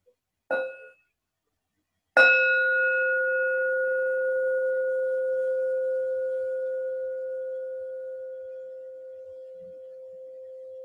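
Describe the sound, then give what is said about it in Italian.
A bell rings to mark the end of a reading. A short, quickly damped strike comes first, then a second, clear strike whose bright tone rings on and fades slowly for several seconds. “Ora chiedo gentilmente un suono di campana per indicare il termine della lettura.”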